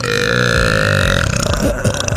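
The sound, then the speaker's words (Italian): A loud, sustained burp with a strong tonal, croaking quality, held steadily for about a second and a half before breaking into rougher pulses, with no speech. “Ma si fa la scoreggia, non il rutto.”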